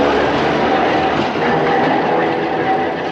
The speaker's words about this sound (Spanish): El tranvía parte